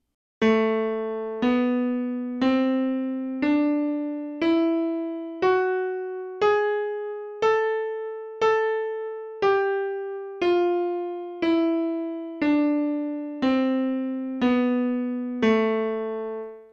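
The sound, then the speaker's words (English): A melodic minor scale played as single bright, decaying tones about a second apart. The notes climb with a raised sixth and seventh, then fall back down as a natural minor scale, with no voices. “That is, going up, it's got the raised 6th and 7th. Going down, it's just like a natural minor scale. And if you play it that way, it sounds like this.”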